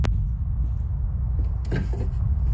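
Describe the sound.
Clicks and rattles of a rusted, jammed box latch being forced open: a sharp click at the start, then faint scraping and a brief cluster of rattling knocks.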